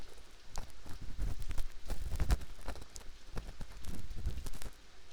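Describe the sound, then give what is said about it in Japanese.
Ear-pick scraping inside an ear in close ASMR style, many soft irregular scratches and light taps that come in uneven clusters, with no voice. “しながらお掃除するね。こうして耳かき棒で、”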